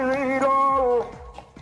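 A street bottle collector calls out while passing by, a drawn-out sung cry that holds steady, then drops off and fades into faint background noise.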